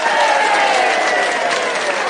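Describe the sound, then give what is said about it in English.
Applause played as a sound-effect cue, steady dense clapping mixed with a murmuring crowd that holds evenly and fairly loudly throughout. “can we get an applause cue?”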